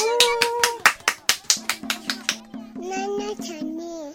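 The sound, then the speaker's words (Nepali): Hand claps welcome street theatre actors, about a dozen sharp claps in a steady rhythm. Voices sound over them and carry on as the clapping thins out. “ल, अब जोरदार तालीले हाम्रा कलाकार साथीहरूलाई स्वागत गरौँ र सडक नाटक हेरिदिएर साथ पनि दिउँ।”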